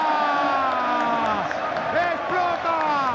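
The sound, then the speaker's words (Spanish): Stadium crowd at Camp Nou roaring as Barcelona celebrate a clásico title win, a dense, sustained wall of cheering that stays loud throughout while an excited voice shouts over it. “¡Explota el Camp Nou! ¡Bailan los jugadores del Barcelona! ¡Han hecho historia en este clásico!”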